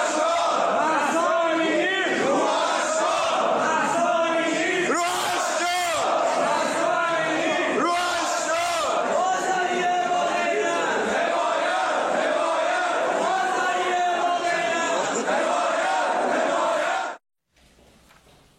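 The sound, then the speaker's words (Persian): A protest crowd chants in the Tehran bazaar, with shopkeepers shouting slogans in support of the protests. The loud, rhythmic unison chanting runs for about seventeen seconds, then cuts off abruptly, leaving faint background noise. “در تهران، البته چند شهر دیگه، با فریاد مهسا جان روحت شاد، بازاری با غیرت، حمایت حمایت، دست از کسب و کار هم کشیدن.”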